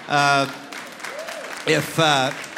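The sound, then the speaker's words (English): Audience clapping during a Mother's Day address honoring mothers: a steady wash of applause fills the gap between bursts of a speaking voice, then continues faintly beneath the talk. “you don't have to clap for that. Don't encourage her at all.”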